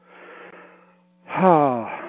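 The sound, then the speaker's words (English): A breath drawn in and let out during a guided mindfulness exercise on acceptance: a soft, airy inhale of about one second, a short pause, then a louder, voiced exhale that rises and falls like a sigh. “So, let everybody take a breath. Let me take a breath.”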